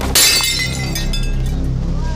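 A glass bottle is dropped and shatters: a sudden loud crash is followed by fading, scattered tinkling of fragments over a steady low background.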